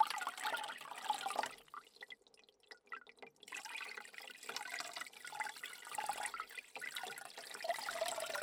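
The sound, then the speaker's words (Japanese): Warm water flows steadily while gently rinsing a person, a soft continuous hiss and splash that drops nearly silent for about two seconds before resuming. “それではこのまま優しく流していきますね。”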